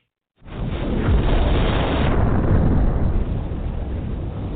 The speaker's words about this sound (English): Man, that bomb took too long, boy.